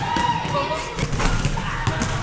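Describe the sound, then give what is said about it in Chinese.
Young novice monks dribble a basketball on a court alongside their teacher, producing several quick, dull bouncing thuds in an irregular rhythm over steady background chatter. “小沙弥们跟着师父在篮球场上运球上篮，展现满满的活力。”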